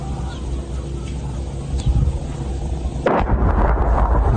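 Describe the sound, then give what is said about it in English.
Mortar shells being fired upon a village: a single sharp, loud blast cuts in abruptly partway through a steady, dense rumbling background and leaves a harsher, brighter wash of noise after it. “that distinct sound that you hear where it's going, like those are mortar shells that are being like fired upon the village”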